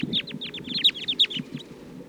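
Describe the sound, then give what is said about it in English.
Many rapid high-pitched chirps and twitters from a restless flock of about fourteen wild birds perched together in a treetop, with calls overlapping in an irregular stream. “About 14 birds. Now they're all perched here up in the treetop.”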